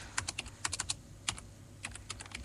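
Rapid typing on a computer keyboard while an ID number is entered on a voter-registration lookup website, with many quick key clicks arriving in bursts separated by short pauses. No voices are heard.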